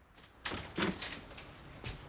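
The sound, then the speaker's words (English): A motel room door swings shut, giving faint, soft knocks and thuds with a quiet rattle, a few brief impacts spread across a couple of seconds. “He shuts the door after him”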